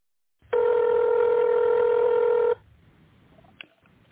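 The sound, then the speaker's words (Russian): A single steady electronic telephone tone sounds for about two seconds on an office phone line's automated menu, where callers dial an employee's extension in tone mode. A few faint clicks follow the tone. “номер сотрудника, наберите его в тоновом режиме или дождитесь ответа секретаря”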